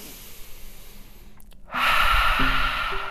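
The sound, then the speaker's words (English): A deep breath, heard as a loud, airy rush of air that swells after a soft hiss and carries on steadily to the end, with no talking. “And now let's take one big deep breath together before we get into the meat of it.”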